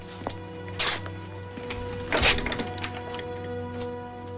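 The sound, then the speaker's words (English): A door being closed in a drama scene makes a few faint, muffled thuds and knocks, the strongest near the middle, over a low steady hum with no voices. “closes the door.”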